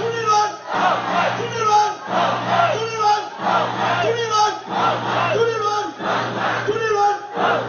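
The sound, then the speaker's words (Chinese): Large crowd chanting a candidate's election slogan in unison at an overseas campaign rally for the Kuomintang before a Taiwanese election. Loud, rhythmic shouted phrases repeat steadily throughout, each rising and falling in a regular pulse. “全场高呼朱立伦当选，朱立伦当选的声音。”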